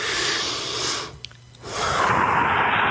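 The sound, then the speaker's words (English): A single deep breath heard alone: a soft, airy inhale, a brief pause, then a longer, steady exhale. “And then you take a deep breath.”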